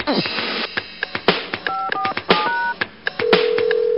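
Telephone number being dialed to call in to a radio station contest: a quick run of crisp dual-tone beeps with small clicks between them, followed by a steady, continuous tone at the end.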